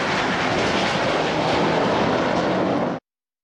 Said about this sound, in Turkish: Girne kenti semalarında F-16 savaş uçağıyla akrobasi gösterisi sergileyen Solo Türk, vatandaşların beğenisini topladı.